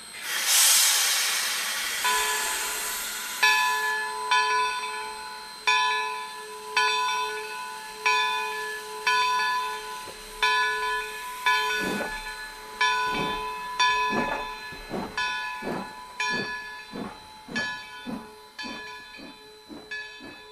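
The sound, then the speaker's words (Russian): An old steam locomotive lets out a loud hiss of exhaust steam, then many evenly spaced, ringing metallic clanks with a bell-like tone, each fading quickly. “Старенький паровозик выпустил белые клубы отработанного пара, сипло свистнул, лязнули сцепы вагонов.”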